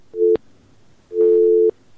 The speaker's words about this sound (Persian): تماس شما وصل است. تماس شان قطع شد.